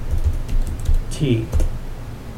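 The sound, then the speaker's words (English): Typing a search into a web browser on a computer keyboard: a few quick bursts of keystrokes with a brief vocal sound partway through. “And then you type into the search, Big Mr.”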